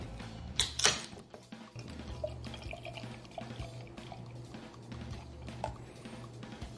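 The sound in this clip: A can of hazy IPA beer, 6.5% ABV, is cracked open and poured, with a brief sharp burst near the start followed by a steady, soft pouring wash that continues to the end.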